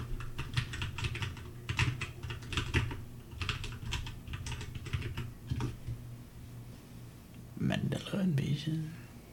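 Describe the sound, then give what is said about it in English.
Rapid clacking of a computer keyboard as a search is typed, with irregular bursts of keystrokes and brief pauses over a steady low hum. “Type in Markiplier, he might have been the one that did it.”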